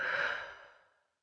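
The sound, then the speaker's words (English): One long, deep breath out during a relaxation exercise for children: a soft, breathy exhale that begins fairly strong and fades smoothly to silence in about a second. “Close your eyes and take a deep breath in. Now breathe out.”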